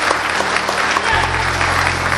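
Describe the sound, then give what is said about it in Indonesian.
Audience applause at a business success-story seminar: dense, steady clapping that runs the whole time at an even loudness, with a low hum underneath. “Beri applause yang buat Trianetok Bapak Ibu semuanya.”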